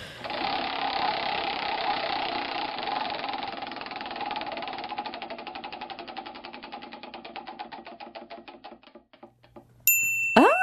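A prize wheel spins with rapid, dense clicking that gradually slows into distinct, widely spaced ticks before stopping, followed by a short, bright electronic sting.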